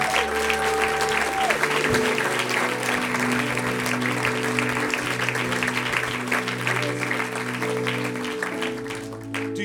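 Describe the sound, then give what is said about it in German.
Applause from a church audience giving praise at a worship service: dense, continuous clapping that runs the whole length at a steady level over held musical tones. “Let's give God a shout of praise. Amen. Geben wir Jesus einen Applaus.”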